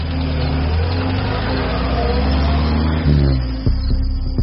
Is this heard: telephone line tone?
no